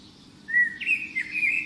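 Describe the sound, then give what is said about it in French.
Small birds chirp in a garden. High, bright tweets start partway in and continue as a quick, warbling run over a faint low background. “Et ces petits gazouillis qui font du bien.”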